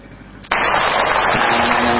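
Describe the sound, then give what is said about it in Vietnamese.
Applause from a Buddhist audience at the close of an evening Dharma talk: a dense, steady wash of clapping that bursts in sharply after a brief quiet start and holds at an even loudness to the end. “Cảm ơn những dàn pháo tay của quý vị Phật tử đã kết thúc buổi chia sẻ giáo lý vào buổi tối hôm nay.”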